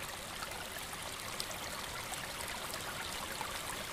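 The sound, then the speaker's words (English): Distant white water roars in a faint, continuous rushing hiss, steady and even throughout with no breaks or distinct splashes. “It is of stark contrast to the more distant roar of the white water, but they complement each other wonderfully.”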